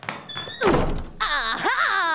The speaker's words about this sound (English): was barging down doors and saying, aha!